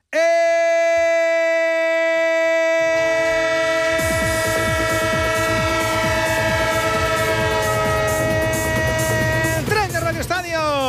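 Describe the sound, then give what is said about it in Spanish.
A train sound effect: a loud, steady horn chord holds alone at first, then a rhythmic wheel clatter joins and continues under it, with the horn tones wavering near the end. “El tren de Onda Cero, creo que sí, el tren del fútbol, el tren del básquet, el tren del deporte en vivo”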